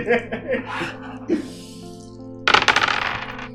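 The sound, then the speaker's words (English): Three dice clatter and rattle across a surface during a tabletop game, a short burst of sharp, bright knocks and tumbling clicks that follows a stretch of quieter, muffled sounds. “Alright, roll 3 positive dice.”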